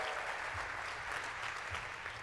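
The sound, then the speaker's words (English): An audience gives a round of applause, dense steady clapping that holds at an even level from start to finish, fairly faint. “come on, round of applause.”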